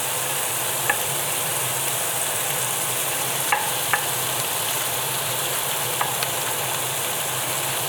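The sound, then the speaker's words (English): Meat sears in a hot pan before being added to onions for a classic Flemish stew: a steady, even sizzle and crackle runs throughout, broken by a few faint sharp clicks, with no talking. “So you want to turn the meat as well, so it's seared on all sides before you add it to the onions.”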